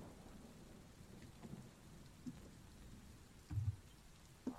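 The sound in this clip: Faint, steady rain falls at sunrise, a soft continuous hiss with a few muffled low thumps scattered through it and no voices.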